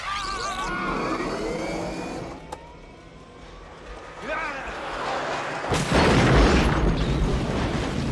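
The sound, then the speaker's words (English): A robot taxi crashes into a wall and bursts into a giant fireball in a sci-fi film scene. Sweeping tones lead to a sharp impact partway through, then a loud, sustained roar of the blast fills the end. “It just drives into a wall and then immediately explodes into a, you know, a giant fireball.”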